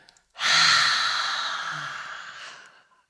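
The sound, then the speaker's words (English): Deep exhale through an open mouth with the tongue out: a long, breathy rush of air lasting over two seconds that starts strong and slowly tapers away. No talking is heard. “And loud and clear, open your mouth, stick your tongue out, and exhale.”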